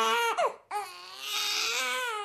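A baby cries in loud, sustained wails with a clear, bright tone. A sharp break cuts the sound short partway through before a long, steady cry resumes.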